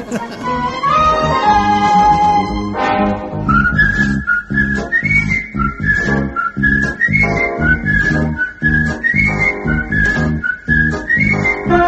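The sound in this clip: Someone whistles a song tune, a loud, continuous melodic line moving in small pitch steps. Talking and other sound come first, then the whistling carries on to the end.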